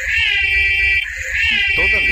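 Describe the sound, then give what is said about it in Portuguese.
An alarm sound effect used to flag an off-topic tangent: a loud, high, wavering electronic tone holds steady, dips briefly near the middle, then returns, with a short burst of lower buzzing tones near the end. “a gente tá pra instituir o alarme de assunto. Toda vez que começar a se desviar do assunto, vai tocar esse som aqui, ó.”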